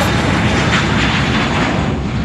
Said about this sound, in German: Das ist ein Düsenjet. Der startet gerade.